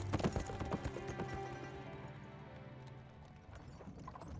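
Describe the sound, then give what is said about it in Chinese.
Steady clip-clop of horse hooves as a horse-drawn carriage moves on, a continuous rhythmic stream of many hoofbeats at fairly even loudness. “马车又继续往前走”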